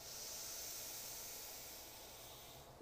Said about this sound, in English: We're going to inhale through our nose.